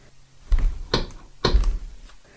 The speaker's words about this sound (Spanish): escuchó que alguien tocaba la puerta de su casa